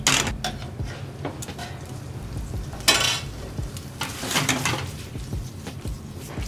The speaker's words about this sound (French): Et là, tu les remues, tu vois. Et là, on va réduire jusqu'à ce que la sauce nappe bien les pâtes.